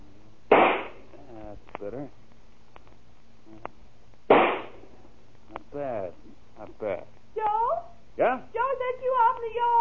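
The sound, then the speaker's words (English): Two sharp, loud rifle shots ring out a few seconds apart, with people talking between and after them. “Why are you shooting that rifle? What are you shooting at?”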